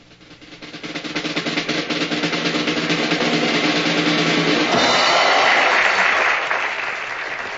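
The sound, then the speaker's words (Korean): Sustained applause in a film scene as a performer heads onto a stage: clapping swells over the first second into a dense, steady patter, then thins slightly near the end, with a faint musical tone beneath during the first half. “하지만 그녀는 눈물을 닦아내고 박수 소리에 맞춰서 무대로 나갑니다.”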